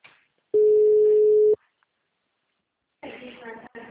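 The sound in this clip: A telephone ringing tone sounds through the line as one steady, mid-pitched beep lasting about a second. Silence follows, and then a voice starts talking.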